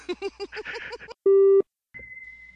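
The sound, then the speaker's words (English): Phone ringing: electronic tones follow a voice talking, first a short steady low beep, then a higher sustained tone. “that's my phone”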